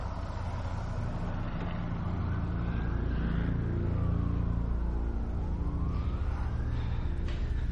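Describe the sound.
A parked van's engine runs with a steady low rumble on a building rooftop, with smoke from the exhaust, while wailing sirens rise and fall over it.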